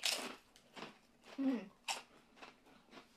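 Crunching and chewing of thick all-dressed potato chips: a few soft, crisp bites in an irregular rhythm, quiet and close, with no talk over them.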